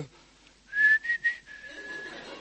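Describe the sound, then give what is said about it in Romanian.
A person whistles alone: three short, bright notes at about the same pitch, then a long, steady held tone that fades to a softer level. “Primul lucru îți vine să fluieri.”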